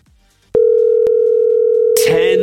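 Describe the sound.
A telephone line sounds during a radio call-in contest as a steady, loud electronic tone that starts abruptly and holds. Near the end, voices begin speaking over it.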